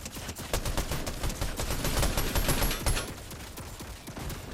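A turret fires rapidly in the Fortnite video game, a long sustained burst of many sharp shots at a fast, even rhythm that eases slightly in loudness toward the end, with no talk.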